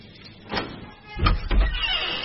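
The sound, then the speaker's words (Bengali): A door being opened in a room: soft, faint scraping and knocking noises in a few short bursts, the heavier ones clustered near the end. “দরজা খুলে ঘরের আলো জ্বালল mini.”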